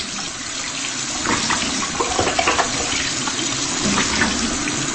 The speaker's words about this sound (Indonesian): menyalakan air keran di wastafel